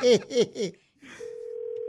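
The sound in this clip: Ringback tone of an outgoing telephone call, one steady low electronic tone with a slight buzzing pulse that starts after a few short voiced syllables and holds to the end.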